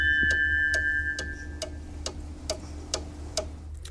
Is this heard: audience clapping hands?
no